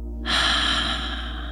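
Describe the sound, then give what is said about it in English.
A deep inhale through the nose: after a brief silence, a single breathy intake of air starts abruptly and holds steadily for over a second, over a constant low hum. “So inhaling through your nose. Sounds like this.”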